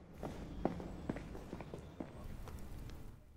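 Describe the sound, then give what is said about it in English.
Faint footsteps of someone hurrying out through a prison gate, several soft steps in a fairly even, quick rhythm over a low background hum. “At the prison, the officer opens the gate and Kildare hurries out.”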